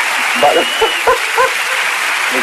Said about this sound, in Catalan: No, home, no m'havien aplaudit d'aquesta manera mai, estant al vàter